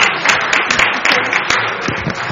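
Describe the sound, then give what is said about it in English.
Loud applause at a meeting, a round of clapping for a colleague on her due date: dense, continuous clapping with many overlapping sharp hits at a fairly even level throughout. “I think that she deserves a round of applause here.”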